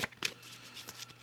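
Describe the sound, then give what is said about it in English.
Goddess guidance oracle cards being shuffled, with a few soft, brief riffling bursts of papery rustle. The sound is faint and there is no talk. “So I'll pull some goddess guidance cards for you guys to kind of like round this out.”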